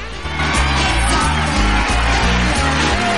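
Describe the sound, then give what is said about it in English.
A packed hall of people cheers as a man enters a welcome-home celebration. The cheering is a loud, dense wash of crowd noise with low, steady music underneath. “The hall is packed with people, and they cheer as Louis comes in.”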